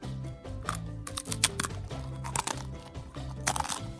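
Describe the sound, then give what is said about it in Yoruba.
Kola nut being chewed gives a few crisp, sharp crunches and bites, scattered irregularly over a low, steady humming tonal background. “Bí ó ti ń jẹ òbí, ló mu sìgá lé.”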